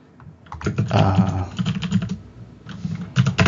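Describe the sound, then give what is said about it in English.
Rapid clattering keystrokes on a computer keyboard come in dense, irregular bursts of many clicks. There is a short lull before the typing picks up again, loud and with no talk. “people love when I type.”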